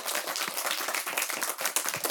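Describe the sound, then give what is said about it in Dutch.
An audience applauds someone for sharing a personal story, with many hands clapping in a dense, even patter that holds steady for the whole clip at a fairly soft level. “Mag ik een applaus voor het delen van het verhaal?”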